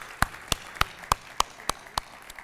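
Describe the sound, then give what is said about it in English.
Applause from a church audience welcoming a new student pastor, heard as a run of sharp, evenly spaced claps at a steady brisk pace over a faint background. “Would you give them a hand, guys?”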